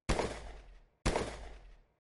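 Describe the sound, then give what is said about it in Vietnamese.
Gunfire inside a boat cabin: two sharp, loud bangs about a second apart, each trailing off in a decaying tail before silence. “Lúc này, tiếng súng bên trong khoang thuyền càng thêm kịch liệt.”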